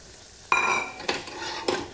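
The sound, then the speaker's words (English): A spoon scrapes and clinks in a bowl while stirring flour and baking powder into melted butter: three separate strokes, each a sharp ringing tap trailing into a softer scrape. “And mix both the flours together. So once the butter's melted, you can add all your flour.”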